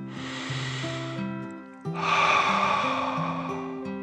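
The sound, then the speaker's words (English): One slow, deep breath in and out during a calming guided breathing exercise, over soft sustained music tones. A soft airy inhale is followed by a brief pause, then a longer, slightly louder exhale. “He took another dragon breath in and out.”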